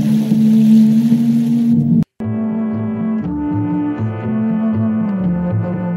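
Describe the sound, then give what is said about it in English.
Film soundtrack music made of sustained low, brass-like tones. One held note cuts off in a brief silence, then a sequence of shifting low held notes with bright overtones continues. “When I first heard this music, which does continue in this minute, it reminded me of the original Pirates of the Caribbean ride at Disneyland”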